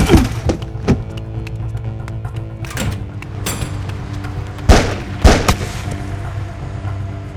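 Gunshots sound as several sharp, loud bangs at irregular intervals, each with a short ringing tail, with the two heaviest blasts coming near the end.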